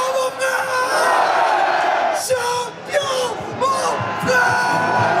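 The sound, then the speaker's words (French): A crowd cheers players one by one as they appear on stage with captain Marquinhos, a loud mass of shouts, whoops and yells that swells and dips, with some voices standing out. “Sur scène, un à un, les joueurs sont acclamés avec un chouchou.”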